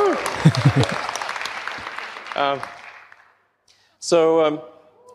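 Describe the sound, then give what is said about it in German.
Audience applause at a car presentation, a dense patter of clapping that gradually fades out over about three seconds, with a voice speaking briefly over it and again after it stops. “Wir hören einfach zu, Leute applaudieren”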